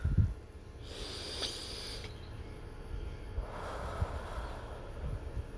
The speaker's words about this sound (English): I again want you to take a deep breath in.